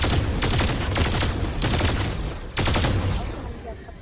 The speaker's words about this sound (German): Ich schieß auf ihn, er rennt weg. Ich hab ihn.